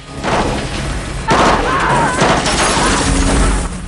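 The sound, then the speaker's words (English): Gunfire from a marksman in a helicopter shooting at a car, heard as a dense, loud burst of shots and impacts over continuous heavy noise. “The marksman opens fire, opening the car's boot.”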